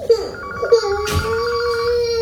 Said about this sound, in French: répond au téléphone, s'il te plaît.